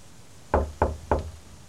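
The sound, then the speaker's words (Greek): Knocking on a house door: three sharp, evenly spaced raps, each a firm thud with a short resonant tail. “Πήγε λοιπόν ένας ναύτης και χτύπησε την πόρτα του Καούστου”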